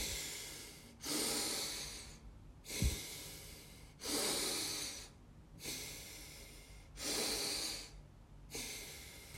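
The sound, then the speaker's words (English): Slow, steady breathing in and out through the nose during a breathwork session. Soft, airy whooshes come at an even pace, with about six breaths separated by brief quiet gaps and no talking. “Inhale through the nose. Exhale through the nose. Start slow. In. Out.”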